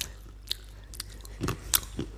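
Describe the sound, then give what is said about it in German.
Peanuts being chewed with an open mouth, giving a handful of faint, crisp crunches and wet smacks spaced irregularly over a quiet hiss. “ich kann noch ein paar Erdnussgeräusche. Ja? Mal, warte. Auch mit offenem Mund.”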